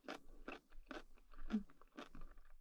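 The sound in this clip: Crunchy chewing of food: a run of crisp bites about every half second, fairly faint, with no talk over it.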